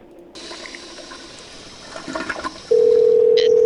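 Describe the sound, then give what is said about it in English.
A toilet being flushed again as its problem keeps worsening: a rush of water noise that grows busier and louder for about two seconds, then is abruptly overtaken by a loud, steady telephone-like tone. “I flushed it again, but it's just getting worse in here. I mean, should we stop flushing it now?”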